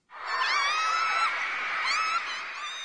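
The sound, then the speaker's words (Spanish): High-pitched screaming from a crowd of girls, like fans greeting their favourite singer, holds as one continuous, overlapping shriek at steady loudness for about three seconds. “Parecen chicas gritando al ver a su cantante favorito.”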